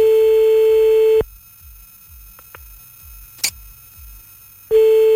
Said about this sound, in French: On appelle le premier maintenant. Merci pour tous les numéros, tout le monde. C'est parti.